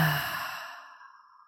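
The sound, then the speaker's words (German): One deep breath released as a slow, breathy exhale through the mouth during a guided breathing exercise, strongest at the start and fading gradually to near silence. “dann nimmst du jetzt einmal 3 tiefe, satte, liebevolle Atemzüge mit mir und atmest ganz tief ein und dann durch den Mund aus.”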